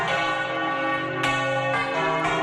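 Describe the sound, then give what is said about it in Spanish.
Church bells ring out across a city centre at one in the afternoon, several bells sounding together in a dense, rich clang with fresh strikes cutting in over the sustained ringing. “Hemos podido comprobar a la 1:00 p.m. cómo sonaban todas las campanas aquí en el centro de la capital.”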